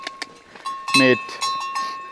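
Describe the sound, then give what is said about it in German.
Cows on a mountain pasture: bells clink steadily and a brief, low lowing call rises above them, while people talk. “Und jetzt laufen wir ja, direkt auf die Kühe zu, keine ja, Zäune mehr.”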